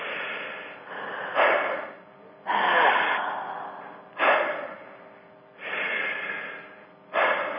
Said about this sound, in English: maybe you want to do this for a couple of minutes as I talk and just breathe deep inhale.